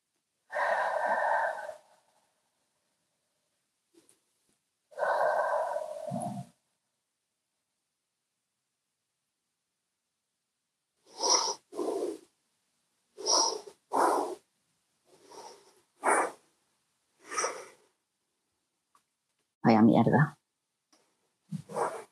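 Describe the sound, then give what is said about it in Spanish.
Deep breathing, in through the nose and out through the mouth, heard as two long, airy breaths, then a run of shorter breathy bursts separated by pauses. “lo que voy a empezar es inhalando profundo por la nariz, exhalando abundante por la boca para ir a ese lugar de máxima neutralidad emocional.”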